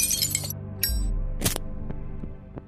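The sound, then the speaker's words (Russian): A glass flask of ether shatters after being hurled: a sharp, bright crash of breaking glass followed by a few faint tinkling clinks as fragments settle, with brief high glassy bursts before the main break. “Резким движением выдернув пробку, он метнул флакон прямо в середину бурлящего зеленого пятна.”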